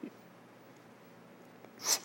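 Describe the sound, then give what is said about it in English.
A quick, hissing breath drawn in after near silence, from a freediver demonstrating a deep full inhale as a breathing exercise; it swells briefly and fades near the end. “I would just demonstrate. It's inhale, full inhale, and then it's relaxation.”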